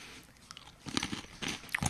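Someone bites and crunches an Applejacks apple-cinnamon cereal piece, making a few faint, brittle crunches and chewing sounds close together.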